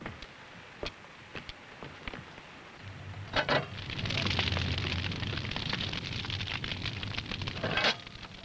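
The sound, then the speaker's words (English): Wood fire burning in a bread oven as sticks are added, with scattered sharp pops and crackles at first, then a denser, steady roar of crackling and low rumble that keeps going to the end. “I'm going to bake some bread. I've already heated the oven and I've kneaded the dough. Now, you get over here and put these sticks on the fire.”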